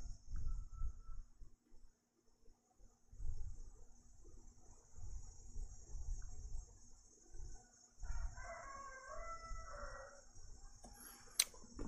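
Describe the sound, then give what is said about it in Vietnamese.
Summer cicadas drone as a steady high-pitched hum through the whole stretch, with low rumbling bursts beneath and a short harmonic animal call briefly rising over it near the end. “Ve ve ve ve, con ve đã kêu, mùa hè đã đến.”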